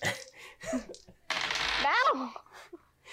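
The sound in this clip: Dice rolling during a tabletop role-playing game make a short, dense rattling burst lasting under a second, with people talking before and after it.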